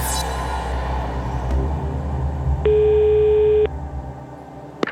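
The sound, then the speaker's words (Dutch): An unanswered telephone call rings once with a long, steady electronic tone at a mid pitch over a constant low rumble. A short click follows near the end. “ik zou hem even bellen”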